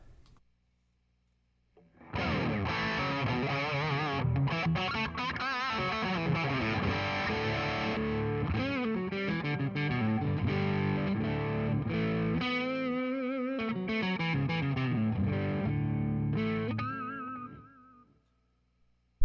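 Distorted electric guitar played on the neck pickup through a mid-gain amp, with a continuous run of sustained, chord-rich notes that holds steady in loudness for about fifteen seconds, then fades out.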